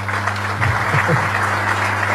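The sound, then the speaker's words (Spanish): A crowd applauds after a governor's speech. The clapping is dense and steady, with a low hum running underneath. “Así que desde mi corazón les aplaudo, y apláudense usted también, que tanto, apláudense.”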